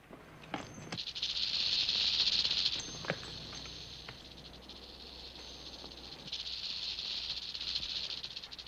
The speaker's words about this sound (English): Thinking the soldier has returned, Sarah rattles the snake.